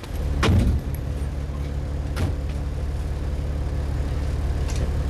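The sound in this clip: Steady low engine rumble of a milk-carrying car stopped on the road, broken early by a heavy door-like thump and, a moment later, a sharper click, with no talk.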